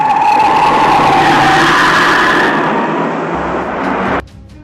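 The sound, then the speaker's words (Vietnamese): A car speeds away from an underground garage with a loud roaring engine and a high tire screech, the roar holding strong before cutting off sharply near the end. “Rất nhanh, xe khởi động cùng nhanh chóng rời khỏi gara ngầm.”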